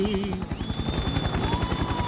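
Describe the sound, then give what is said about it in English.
A helicopter arriving: a continuous fast, rhythmic rotor thumping with a broad mechanical roar, steady and moderately loud throughout. “And here they come now, the two brothers and their helicopter ready to make it happen.”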